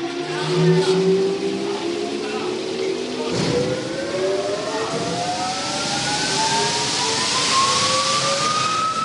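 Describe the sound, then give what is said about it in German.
A loud blower pushes 21 tonnes of coffee beans into a plastic-lined shipping container at a coffee purchasing warehouse in Pu'er, Yunnan. A constant broad roar carries a motor whine that climbs steadily in pitch throughout. “Mit Getöse pustet ein Gebläse 21 Tonnen Kaffeebohnen in den Container, der zum Schutz gegen Feuchtigkeit und Dreck mit einer Plastikhülle ausgekleidet ist.”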